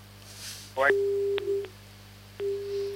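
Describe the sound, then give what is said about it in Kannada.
A telephone busy tone follows a call cut off during a radio phone-in: a few pulses of a steady, mid-pitched tone, preceded by a short warbling sound and broken by sharp clicks. “ಅಯ್ಯೋ, ಅವರ ಕರೆ cut ಆಗಿ ಹೋಯ್ತು, ಯಾಕೆ ಅಂತ ಗೊತ್ತಾಗ್ಲಿಲ್ಲ.”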